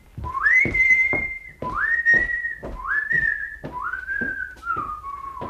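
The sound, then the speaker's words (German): A man whistles an opera tune outdoors on a bright morning: clear, pure notes in four long sustained phrases with brief breaks between them, the last phrase sliding lower as it trails off. “Ich bitte den Hörer dieses Pfeifen unseres Herrn Biedermann aus dem Rosenkavalier, wenn ich nicht irre, in keiner Weise zu missdeuten.”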